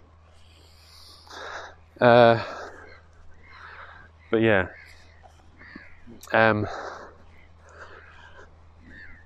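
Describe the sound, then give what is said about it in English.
Three loud, harsh squawks from a human voice imitating seagull calls, spaced about two seconds apart, with quieter talk running between them. “Because that's how seagulls sound. See? Tell me that's not how they sound. Because they definitely do.”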